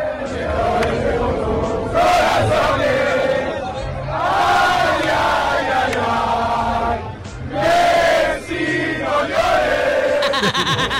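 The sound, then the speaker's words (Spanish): A Spanish crowd sings the folk song Cielito Lindo to taunt Messi: many voices in loud unison, with long held notes and swaying phrases that swell and break off between lines. “El cielito lindo. Cantado por los españoles. Ay, ay, ay, ay, Messi, no llores.”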